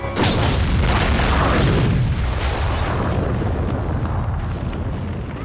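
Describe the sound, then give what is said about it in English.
A car bomb explodes as a falling suitcase lands on the car, a sudden loud blast followed by a long, rumbling roar that slowly fades. “Sags gets into his car and looks at a bomb's detonator. As the case falls towards him, Sags arms the bomb and presses the button, just as the case lands on his car.”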